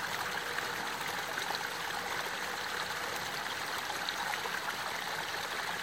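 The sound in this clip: Flowing water runs in a steady, continuous trickling stream, an even bright rush with no pauses or changes, heard alone without any voices.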